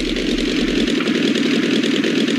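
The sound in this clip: Light aircraft engine throttled back to 1500 rpm on a landing approach: a loud, steady, rough-textured drone that holds an even level throughout, with no voices.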